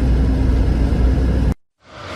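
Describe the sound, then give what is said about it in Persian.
Cars are jammed on a road where side routes are blocked after the main bridge was hit, and drivers are turning around. A loud, steady engine and road rumble cuts off abruptly, goes silent briefly, then swells back. “تمام ماشین ها اومدن اینجا قفل شدن، دارن دور میزنن برگردن”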